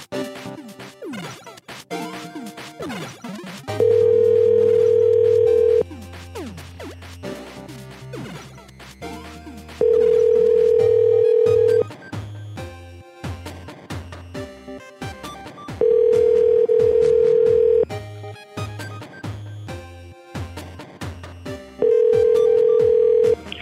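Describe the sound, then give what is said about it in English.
Telephone ringback tone on an outgoing call: four steady two-second tones, each repeating about every six seconds over a busy background. “Come on, pick up. Yeah, how she knew the numbers offhand, too? I know. They're not working. Too many people calling right now.”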